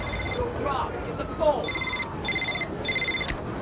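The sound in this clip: A telephone rings in short, repeated electronic trills that sound in bursts over a low, noisy background.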